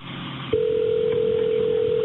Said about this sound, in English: So the dispatcher calls back over there and talks with the second caller.